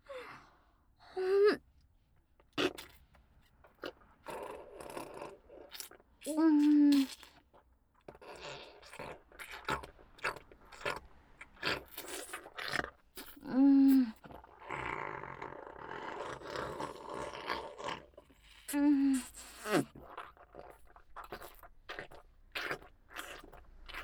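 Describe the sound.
Soft chewing and eating sounds come in quiet, irregular bursts separated by near-silent gaps, with a few brief murmured vocal sounds mixed in.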